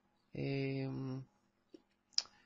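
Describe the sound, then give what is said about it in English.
Two sharp, brief computer mouse clicks, spaced about half a second apart, follow a short voiced sound on a website order page. “I'm a new customer, so I'm going to click on continue.”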